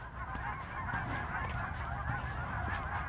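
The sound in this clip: Flock of geese honking as they fly overhead, many overlapping honks forming a steady, fairly faint chorus throughout.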